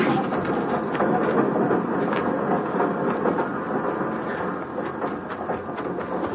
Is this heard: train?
yes

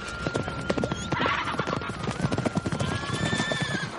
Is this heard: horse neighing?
yes

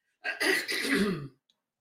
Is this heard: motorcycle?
no

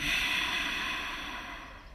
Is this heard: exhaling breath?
yes

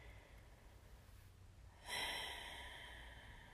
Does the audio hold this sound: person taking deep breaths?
yes

